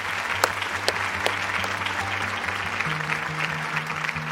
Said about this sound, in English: And please put your hands together to thank the panel.